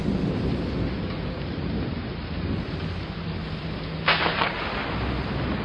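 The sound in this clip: Thunder rolls through a heavy storm over a city just before midnight: a steady, dense roar of rain and low rumble fills the whole clip, with a brief sharper crackle about two-thirds through.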